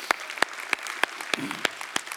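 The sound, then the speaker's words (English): Claps at a church service as first-time guests are welcomed: seven sharp, evenly spaced claps in a steady rhythm, with nothing else heard around them. “Could give it up for all of our first time guests.”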